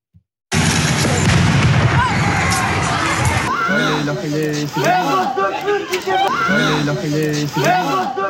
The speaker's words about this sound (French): Écoutez simplement le bruit que fait une grenade de désencerclement. On est à Lens à ce moment-là. On a le bruit.